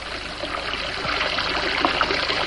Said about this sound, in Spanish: y abre el grifo del lavabo